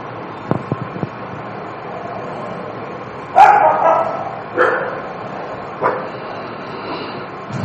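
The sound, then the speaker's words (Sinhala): Dogs barking outside: three loud barks spaced over a few seconds against a steady background hiss, preceded by a few faint clicks. “බල්ලෝ පුරනවා කියලා දැනගන්නේ කොහොමද? එළියේ ඉන්න බල්ලෝ කියලා දැනගත්තේ. ඇහුනේ ශබ්දයක්.”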